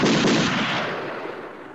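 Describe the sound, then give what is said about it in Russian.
A single pistol gunshot fired by a horseman at the front of a line of rebels: one sharp, loud crack at the start, followed by a long rumbling tail that slowly fades over the rest of the moment. “Прозвучал выстрел.”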